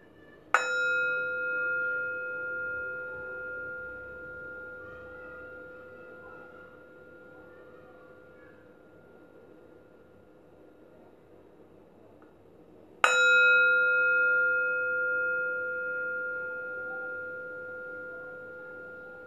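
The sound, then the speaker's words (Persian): A meditation bell is struck twice, far apart. Each strike gives a bright attack and a pure, sustained ringing tone that slowly fades into near-silence before the second strike rings out again. “اجازه بدیم با صدای فرکانس این زنگ افکار از ذهنتون دور شه.”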